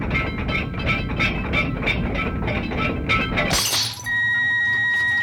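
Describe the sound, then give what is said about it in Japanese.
Pressure bulkhead cracking: a steady, pulsing rumble of straining metal breaks into a sharp, bright shattering burst, then gives way to steady electronic tones. “震度1200、耐圧隔壁に亀裂発生。”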